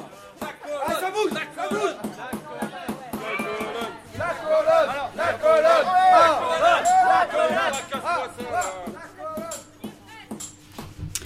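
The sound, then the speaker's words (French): An impatient crowd sings and chants slogans: a dense mass of voices with rising and falling tones, swelling louder around the middle before easing back. “La foule s'impatiente. Ceci dit, elle chante, elle pousse des slogans. Elle veut le voir tomber.”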